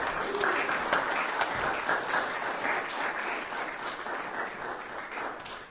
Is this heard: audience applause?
yes